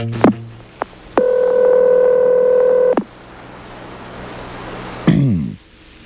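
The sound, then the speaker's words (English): Telephone line sounds as a call is placed to a private home: a couple of sharp clicks, then a steady electronic tone lasting about two seconds, followed by faint line hiss and a final short burst. “I'm calling him at home. I got the number through some people and information, and I called the Thompson residence.”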